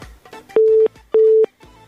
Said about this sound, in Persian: تماستان وصل شده بود ولی دوباره ما مجبور شدیم، ناگزیر شدیم قطع کنیم.